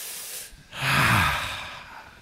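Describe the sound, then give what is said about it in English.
A group of people at a church service take a deep breath together: one broad, breathy swell of air rises and fades over about a second and a half, with no talk. “So everybody take a nice deep breath. Try one more time. I want you to pretend like everything is perfect in the world, okay? Take a nice deep breath again.”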